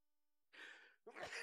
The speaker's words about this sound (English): I think you mean to say bless you. Oh, yeah, bless you. Golly, ever heard someone sneeze before?